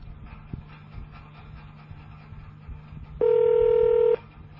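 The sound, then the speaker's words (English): A single touch-tone key press dialing an extension on a police department's automated phone menu, one steady bright tone lasting just under a second over a low, constant line hum. “If you know your party's three-digit extension, you may dial it now.”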